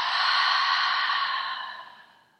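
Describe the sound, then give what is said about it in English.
A deep breath during a guided breathing exercise: one long, airy breath out that holds steady, then fades away toward the end, with no talk. “let's take a nice deep breath in and then exhale out.”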